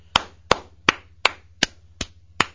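Seven sharp, evenly spaced claps ring out at a slow, steady pace while a guest named J-Dubs is congratulated. Each clap stands alone with a short decay, and no voices are heard.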